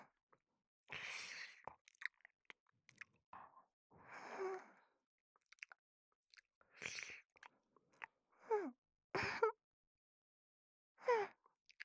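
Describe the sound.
Chewing and biting as someone eats squashed cream-filled bread, starting with the crust: many soft, moist, crunchy bursts separated by pauses, mixed with breathy sighs, with no talking.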